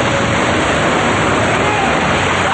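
Rushing water floods in and rises quickly through a structure toward a second level, a loud, unbroken roar that holds steady throughout.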